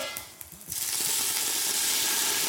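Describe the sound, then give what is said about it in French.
Sizzling from a pan deglazed with a little water to finish cooking; after a brief quieter moment a loud, steady hiss erupts and holds evenly to the end. “Vous demandez de déglacer avec juste un petit peu d'eau pour finir la cuisson.”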